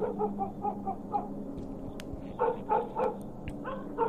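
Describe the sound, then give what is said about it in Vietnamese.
A black dog barks loudly and without letup in a fast run of sharp, repeated barks, with a short lull in the middle before the barking picks up again. “Ở đằng sau, con chó mực vẫn cứ sủa lên inh ỏi liên hồi.”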